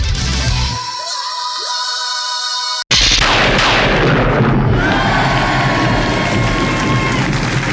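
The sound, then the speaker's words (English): A cartoon-style explosion boom bursts in loudly after a short tonal passage and a brief moment of silence, then holds as a dense, roaring wash of noise that slowly thins out. “Boom! Is the sound of yet another experiment thwarted by Dexter's sister, Dee Dee, as seen in the pages of this week's Dexter's Laboratory”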